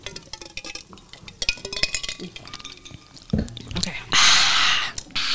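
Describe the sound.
Drinking glasses clink together several times in a toast, then a sustained hissing slurp follows as a drink is sipped. Voices murmur underneath.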